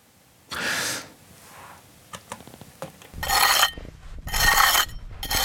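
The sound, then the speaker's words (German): A trowel scrapes the earthen walls of a half-metre-deep excavation pit, uncovering building remains. A few rough, hissing scrapes, with small knocks and clicks in between. “Mit einer Kelle schabt er die Wände ab und legt Millimeter für Millimeter die Überreste eines Gebäudes frei.”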